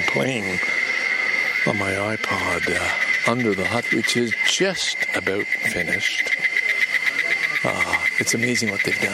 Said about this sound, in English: And you can hear the semis, the cicadas in the trees. Like, isn't that an amazingly loud sound?